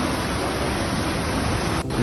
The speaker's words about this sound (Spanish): ¡Hala! ¿Y esta de dónde es, mijo? ¿Dónde corre el agua así?